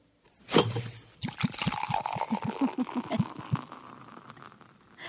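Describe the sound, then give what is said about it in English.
Beer being drunk in a quick run of wet gulps and swallows, a rapid rhythmic series of liquid gurgles, fairly loud and heard alone after a short breathy onset. “What is that? Have a drink? That was a beer.”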